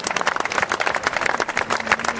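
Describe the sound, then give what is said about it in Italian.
An audience applauds a priest: many quick claps blend into a dense, continuous patter that keeps a fairly even, moderate loudness from start to finish. “Un applauso per Don Franco,”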